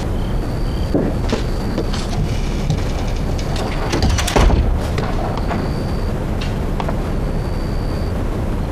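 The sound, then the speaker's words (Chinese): A door being closed lands as a single dull, heavy thud midway through, set against a steady rain-like hiss with scattered light knocks and clicks. “小野把门关上。”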